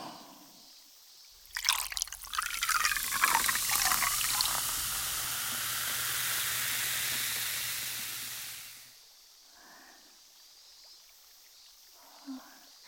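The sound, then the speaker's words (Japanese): Liquid poured right beside the listener's ear starts abruptly as a steady splashing hiss, runs for about seven seconds, then trails off. Soft voice sounds follow in the quiet afterward. “じゃあちょっと後ろに失礼して、先輩の耳元でこれは注いであげますね。”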